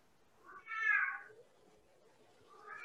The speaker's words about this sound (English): our cat is screaming at the door right now.